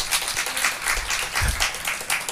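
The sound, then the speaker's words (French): Audience applause at a live show in France in answer to a question about racism: a short burst of uneven clapping from a crowd, moderately loud, lasting throughout. “Par applaudissement, qui a peur de la montée du racisme en ce moment en France?”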